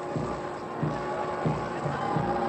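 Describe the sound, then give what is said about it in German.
Massed crowd chanting "Heil" at Potsdam on 21 March 1933: rhythmic shouts rise at regular intervals above a constant low roar of the crowd, muffled and dull in tone. “Jubelt ihren Füßen gerufen. Hören Sie, das Heil, eine Begeisterung. Schöner, schöner Tag von Potsdam.”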